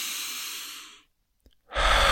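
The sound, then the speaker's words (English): Deep breathing in through the nose as a stress-relief exercise. A long, airy breath fades to silence, and after a short pause another strong breath begins. “take about 5 deep breaths. Inhale. Exhale. In through the nose.”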